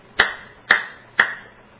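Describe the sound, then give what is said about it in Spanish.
Three sharp hand claps, evenly spaced about half a second apart, each a crisp, loud slap that decays quickly. They are heard alone against near silence as a demonstration of clapping. “La expresión griega crotesate cheiras significa literalmente golpear la mano una contra otra, hacer eso.”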